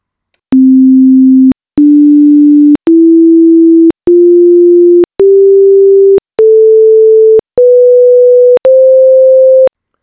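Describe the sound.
A one-octave musical scale of eight pure sine tones, each lasting about a second, separated by short silent gaps and stepping steadily upward in pitch from the lowest note to its octave, loud and clean.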